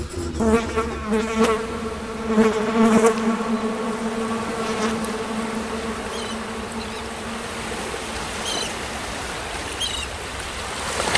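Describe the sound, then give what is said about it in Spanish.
Housefly buzzing in through an open window of a seaside house on Guernsey on a sunny morning, a droning hum strongest in the first few seconds, then thinning out over a steady wash of lapping water. “Entra una mosca.”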